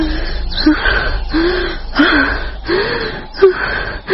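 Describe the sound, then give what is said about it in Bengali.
Heavy panting after waking from a nightmare: a steady series of voiced gasping breaths, rhythmic and fairly loud, each breath rising and falling in quick succession. “হাঁপাতে হাঁপাতে বিছানার উপর উঠে বসল তিতলি”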